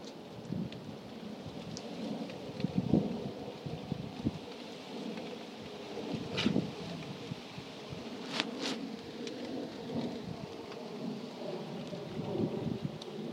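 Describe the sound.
Gusty wind blowing outdoors on a chilly day during a dog walk, a steady rushing roar with low buffeting rumbles and a few brief sharper bursts, with no talk.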